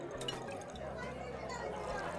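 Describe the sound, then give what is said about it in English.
A pill fizzing in a drink gives a steady, continuous hiss with fine watery crackle that holds evenly throughout. “what do we have fizzing here?”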